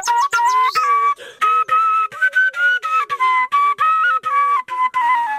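A melody on a shepelai flute played by an elderly villager in Khwaja Omari district, heard alone and fairly loud as short phrases of steady, clear notes with slight pitch bends, separated by brief breath gaps.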